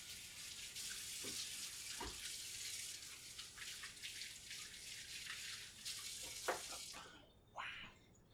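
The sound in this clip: Faint, steady rush of water from a tap as an oily hand is washed while baking, broken by a few soft splashes before the flow stops near the end.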